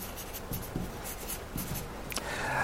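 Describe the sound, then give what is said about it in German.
A pen writes on paper in a quick series of soft, scratchy strokes, with a slightly louder rasping scrawl near the end and no talk. “Also, ich schreibe mal Zeugnis hier drunter zu dem Proklamieren.”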